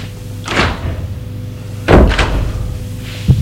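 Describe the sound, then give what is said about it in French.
A door opens as someone walks into a bedroom without knocking, giving a few dull thumps and knocks spread across a few seconds, with no voices. “C'est Jules qui vient d'entrer sans frapper.”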